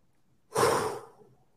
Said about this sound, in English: So I'm going to take a second just to breathe in and breathe out.